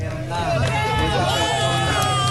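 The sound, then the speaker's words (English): A crowd cheers and shouts as a 43-year-old security guard is pulled alive from the rubble of a shopping center basement, eight days after devastating earthquakes. Many overlapping voices form a loud, dense, steady roar throughout. “Cheers erupt as a man is pulled alive from the rubble 8 days after the devastating earthquakes.”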